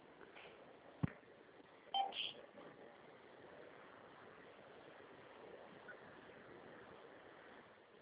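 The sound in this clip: Telephone dialing tones as a call is transferred: a brief tone burst over steady, narrow phone-line hiss, with a sharp click just before it.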